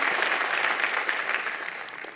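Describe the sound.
A church audience gives warm applause to welcome a pastor: thick, continuous clapping that eases slightly in loudness toward the end.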